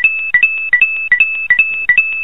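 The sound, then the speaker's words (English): Video game coin pickup chime played over and over at a basketball game, each a bright two-note blip stepping up to a held higher tone, repeating many times in quick, steady succession, loud and alone. “And that's the sound you heard 17 times over the course of the game. The coin, because they like to play that Mario coin sound.”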